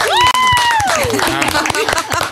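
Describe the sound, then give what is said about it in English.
A small group of about twenty people claps for a prize-draw winner. Quick overlapping claps carry a high, gliding whoop-like voice that falls in pitch, with some chatter mixed in. “Do the clap thing.”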